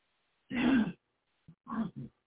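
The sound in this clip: A person clears their throat with one long harsh rasp, then a few shorter grunting rasps after a brief pause, with no talking.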